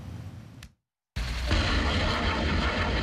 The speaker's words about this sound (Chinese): 这是台湾军方自行研制的雷霆2000火箭弹，在时隔7年后首次在实战区域进行实弹射击。